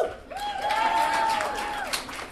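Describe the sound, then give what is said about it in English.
An audience claps in answer to a question from the stage. The scattered applause has a drawn-out cheering voice rising and falling over it. “How many people are going to clap no matter what question I ask?”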